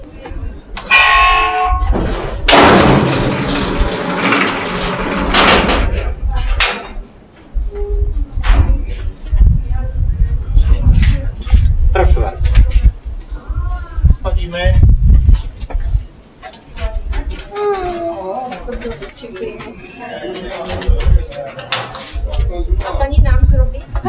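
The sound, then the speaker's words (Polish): Clanking, rattling metal from the shaft lift at the Kłodawa salt mine as it ascends to the surface, a loud jangling burst early on and then continuous rattles and knocks, with voices at times. “No i dochodzimy już do szybu. Będziemy teraz jechać do góry. Wracać na powierzchnię.”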